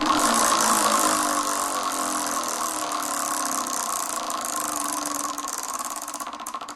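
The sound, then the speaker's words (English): A prize wheel spinning, a rapid continuous clicking rattle over a steady whir that grows slightly quieter and sparser near the end. “Well, it's time to give the wheel a spin.”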